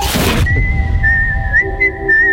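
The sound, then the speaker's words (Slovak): A person whistles a high, clear tune with a fairly steady pitch and small melodic shifts, heard alone after a brief burst of noise at the start. “Čo rozprávam? Pískam si.”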